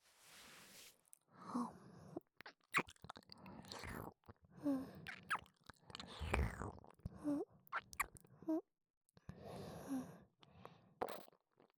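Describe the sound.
Soft chewing and wet mouth sounds while eating offered food, with irregular crunchy bites and quiet breaths, faint throughout with brief pauses.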